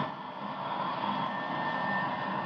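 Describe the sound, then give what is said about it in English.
A jet aircraft's auxiliary power unit runs with a steady, even roar and a thin high whine running through it. The level holds constant throughout, with no voices. “Signal the crew chief to cut in the auxiliary power unit.”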